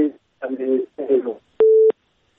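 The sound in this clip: A telephone line tone sounds on a phone-in call after the caller's connection drops: one flat, steady beep of a few tenths of a second that comes right after several bursts of voice.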